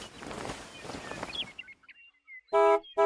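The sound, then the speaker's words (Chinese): Two short, bright honks from the horn of a winged magic school bus in a children's story ring out at the end, after a fading stretch of rushing noise. “滴滴滴，一辆长着翅膀的校车从天上飞了下来。”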